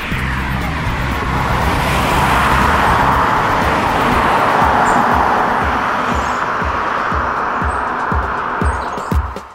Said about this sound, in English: And there goes the Ioniq, silently off into the distance, well, as silent as tyre noise will allow.